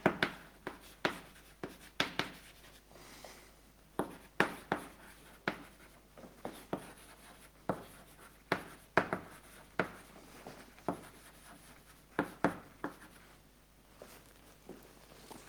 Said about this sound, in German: Oder ich schreibe noch dazu, where, why.